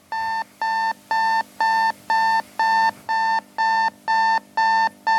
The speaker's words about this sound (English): Who wakes up to this sound still? Anybody? Yeah, did you guys just have a heart attack? Yeah, sorry, I was like, it's like that wake-up sound.